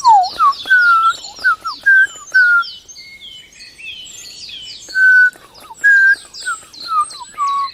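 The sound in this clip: A blackbird sings its fluting song, rich mellow whistled phrases that dip and swoop, each ending in higher thin twitters, delivered in two bursts with a quiet pause between them.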